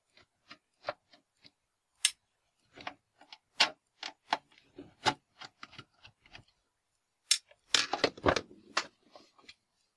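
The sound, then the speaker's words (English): A screwdriver undoing the last two screws on a solid metal switch housing makes many sharp, dry clicks in short irregular bursts, with a denser cluster of scraping clicks near the end. “I already removed 3 of the 5 screws, and I will undo the next 2.”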